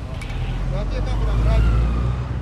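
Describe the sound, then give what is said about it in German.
Traffic on a busy street in Nairobi, Kenya, with buses and cars crowding past one another: a constant low engine rumble that swells slightly midway, with people's voices over it. “Wenige Meter entfernt tobt das übliche Verkehrschaos in Kenias Hauptstadt. Busse und Autos schieben sich dicht aneinander vorbei.”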